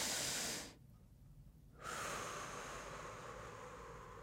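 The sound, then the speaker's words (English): One deep breath in a breathwork exercise: a short inhale, a brief quiet pause, then a long, soft, steady exhale that slowly fades. “You see, that was just an example of one breath. Nice inhale, long exhales.”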